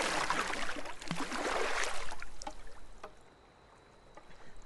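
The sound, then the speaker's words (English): A boat being paddled toward shore with a single oar, heavy splashing strokes and sloshing water that are loud at first, then settle into quieter dripping. “Later, Simon paddles the boat with the remaining oar towards the shore. It's heavy going.”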